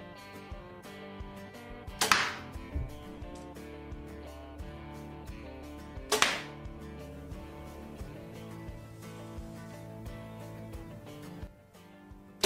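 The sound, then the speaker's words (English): A Bear Archery Redemption compound bow shooting arrows: two sharp, loud snaps a few seconds apart, each with a brief ringing decay, over steady background music. “this bow also shoots so nice, and you'll see for yourself here in these shots.”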